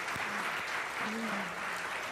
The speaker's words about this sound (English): All dads. Can we just give our dads a loudest clap offering?